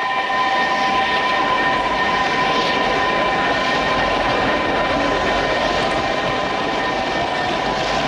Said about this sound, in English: Down the tracks, headlights loom large as a train arrives.